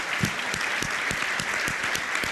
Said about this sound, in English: Come on, let's give God a hand clap for that.